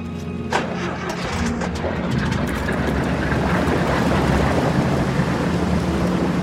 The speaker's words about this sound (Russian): И в это время бандиты заводят мотор баркаса и трогаются.